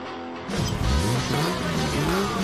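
A rally car engine revs loud and steady after a brief quieter start, its pitch rising and falling in repeated swells for about two seconds with no voices.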